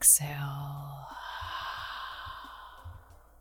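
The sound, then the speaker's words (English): A slow, deep breath during a guided breathing exercise, heard as a long, soft, airy exhale that gradually fades, faint and alone. “exhale. And one more inhale and exhale.”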